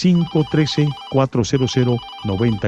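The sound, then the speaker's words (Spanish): An electronic phone ringtone signals an incoming call: a quick, rhythmic run of short, steady-pitched beeping notes, loud and repeated in bursts. “Voy a continuar porque ya tengo una nueva comunicación, me dice la astróloga Sara, que tenemos ya esa llamada al pendiente. Vamos a agarrar esta llamada, es de aquí de Cincinnati.”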